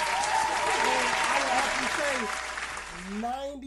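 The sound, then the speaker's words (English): Hands clapping to mark a milestone, a dense clapping wash with voices talking over it, thinning out in the last second as speech carries on. “Don't you gotta clap that up.”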